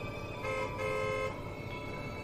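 A car horn honks at a woman walking slowly in the road and blocking the way: a couple of fairly faint, steady toots over continuous road noise.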